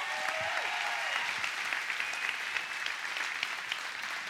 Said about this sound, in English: Give the Lord a hand, will you?